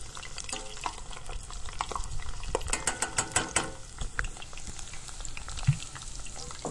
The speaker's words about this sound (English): We're going to add the blanched fries in batches for another 2 to 3 minutes until they're golden brown and crispy.